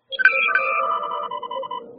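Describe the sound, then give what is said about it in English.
A phone ringtone plays an 8-bit chiptune version of a TV theme, with bright, buzzy synthetic notes in a short melodic phrase. It is loud and heard alone. “The ringtone, if I don't know if you heard it, it was an 8-bit version of the Doctor Who theme.”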